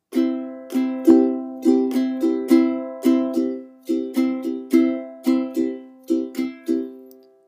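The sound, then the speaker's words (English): A ukulele strumming a C chord in a down, down, up, up, down, up pattern, repeated several times. The bright, ringing strums are played alone at a steady rhythm, each decaying before the next. “he uses the good old fashioned down, down, up, up, down, up. Now if you've been playing ukulele a while, you'll know that one. Using a C chord, that will sound like this.”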